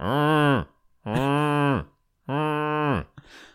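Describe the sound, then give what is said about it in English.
A voice imitates the three horn blasts announcing the White Walkers from Game of Thrones: three long, steady, low droning notes with short gaps between, the last trailing off into breathy noise. “No, it was my my three horns for the White Walkers are coming.”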